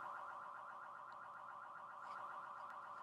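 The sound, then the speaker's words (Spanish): An alarm sounding from the house next door gives a steady, faint electronic tone that pulses in a fast, even warble and continues without a break. “No, pues la pinche alarma de la chingada. No, güey, que nunca la paguen. Ya sabes que siempre pasa como que. Que se queden toda la noche sonando. No, no, de la casita al lado, ¿no?”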